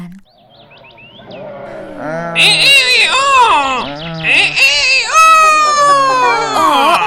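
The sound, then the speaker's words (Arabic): A boastful rooster crows at the top of its voice, a loud, drawn-out call that wavers up and down in pitch and carries on for several seconds after a quieter start. “وفجأة يا أصدقائي جاء الديك المغرور وكان يصيح بأعلى صوته يتباهى ويتفاخر بصوته كثيرا”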